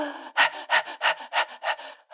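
Panting breaths used as a breathing technique during labour contractions, done with the tongue against the palate: a series of quick, even, breathy puffs at a regular rhythm, fairly loud and with no talk.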